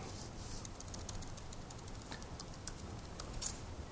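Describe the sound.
Soft typing on a computer keyboard: many quick, light key clicks in an uneven rhythm, with a few sharper taps standing out, alone over a low steady hiss.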